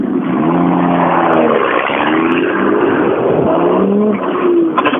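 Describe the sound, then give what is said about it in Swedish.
A five-cylinder car engine revs hard as the car drives off, a loud, continuous growl whose pitch climbs in several successive surges. “Nu får du gasa lite när du åker iväg också. Ja. Du måste gasa nu.”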